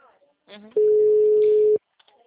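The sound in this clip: A telephone tone after a dropped call sounds as one steady, mid-pitched beep lasting about a second, with brief snatches of voice just before and after it.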